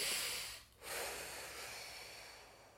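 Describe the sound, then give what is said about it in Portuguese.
A faint, long, hissing deep breath that is broken by a brief pause partway through and then trails off slowly, with no one talking. “Ah, vamos respirar fundo.”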